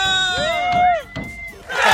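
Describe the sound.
A crowd of prize winners at a street giveaway shouts and screams together, voices swooping up and down in pitch, breaking off briefly, then ending in a noisy burst of cheering.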